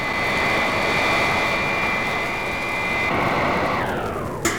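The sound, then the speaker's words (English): Jet-like roar of a robot plane slowing to hover beside a spaceship holds steady and loud, with a whining tone that drops in pitch near the end. “Robot plane slow to rendezvous with ship and hover.”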